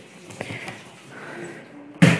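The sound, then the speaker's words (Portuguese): Someone bumps into a staircase, making one sudden, sharp thump near the end after a stretch of quiet, low background noise. “bati na escada”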